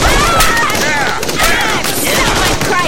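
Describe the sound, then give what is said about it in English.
Gunfire from guns loaded with shock rounds, heard as a dense, unbroken fusillade of rapid shots that stays loud for the whole span. “Nah, these are shock rounds, so it should just knock them out.”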